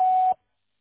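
A single short, pure beep from an answering machine, signalling the start of message recording. It cuts off abruptly into silence.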